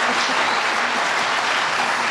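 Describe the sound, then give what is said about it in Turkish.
Applause from an audience at a Turkish folk music event, many hands clapping in a dense, even stream that stays loud and constant without a break. “Gerçek Murat Kızıl Ateş'e bir alkış rica ediyorum.”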